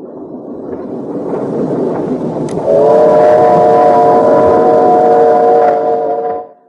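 Train rumbling along on a ride toward Germany, a dense rolling clatter that is joined by a loud, sustained multi-toned whistle chord holding steady for several seconds before everything cuts off.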